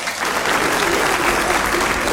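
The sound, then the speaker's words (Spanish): Loud, thick applause from a crowd sending off a guest who ran a marathon, many hands clapping in a continuous, even roar that lasts a couple of seconds with no talk over it. “Un aplauso grandote para el Marco”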